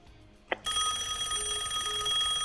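A telephone line opens for an incoming call. A sharp click is followed by a loud, continuous buzzing hiss with steady sustained tones that fill the rest of the moment, with no voices.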